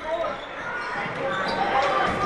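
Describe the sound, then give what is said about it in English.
A basketball being dribbled during a game, its bounces faint beneath steady crowd noise and a commentator's talk. “Nearly losing the dribble was Lurvy. He's got it back.”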